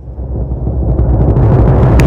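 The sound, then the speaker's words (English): A timpani drum sounds as a deep, booming low rumble that swells steadily louder over about two seconds and is heard alone without talk. “Timpani, hit it!”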